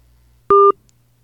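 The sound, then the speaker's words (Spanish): A single short, steady telephone beep sounds as a phone call cuts off, standing alone against near silence. “se ha cortado la transmisión, se cortó la llamada.”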